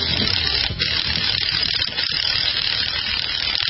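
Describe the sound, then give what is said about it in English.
A lug wrench turns in a greasy garage, making a steady, busy mechanical whir full of ratcheting rattles that runs loud and continuous. “Boy, it's a good thing the lug wrench had some power in it to get that open sign up.”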